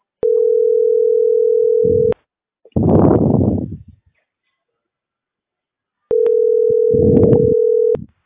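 Telephone ringback tone while a call is being placed: two long, steady, level tones separated by a pause, with a short noisy burst after the first tone and another under the second.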